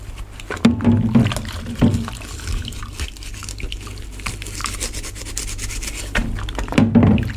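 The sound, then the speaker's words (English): A washing-up sponge rubs a wet plastic mug in a kitchen sink, with squeaky, uneven rubbing strokes and soft wet sounds. The rubbing grows louder near the start and again near the end. “In the sink, the washing up sponge lolls around the wet palate of the plastic mug, evoking pre-verbal sounds, like a paranormal voice breaking through.”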